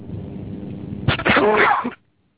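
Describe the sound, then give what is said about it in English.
A single loud human sneeze bursts out after a low murmur, with a sharp intake and a forceful, breathy explosion lasting under a second, followed by abrupt silence. “couldn't get to the sneeze button quickly”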